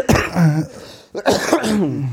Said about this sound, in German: Produktiver Husten. Genau, produktiv. Gutes Zeichen am Ende einer Erkältung.